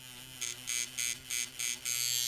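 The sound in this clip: A tattoo machine drives needles to put ink into skin with an electric buzz. It comes in several short bursts, then runs without a break to the end.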